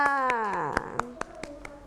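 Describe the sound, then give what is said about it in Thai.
Sparse clapping from a few people for a child after a matching-picture game demonstration, slow separate claps following a woman's voice at the start. “ปรบมือให้น้องกันหน่อยค่ะ”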